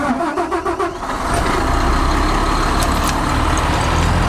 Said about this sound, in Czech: Jdu startovat rychloběžný drtič.